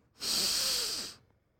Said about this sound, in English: let's all take a deep breath so we can get into this great conversation. Breathe deeply.